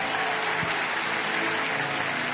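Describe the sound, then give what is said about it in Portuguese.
Church audience applause during a worship service: a dense, even wash of clapping that holds steady for its whole short length, with a faint tonal hum underneath. “Vamos todos dar mais um aplauso bem bonito para Jesus.”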